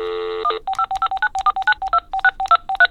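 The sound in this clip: Touch-tone dialing of a telephone number: a brief steady tone, then a rapid, evenly paced string of many short, bright beeps at shifting pitches, clear and alone with no voices.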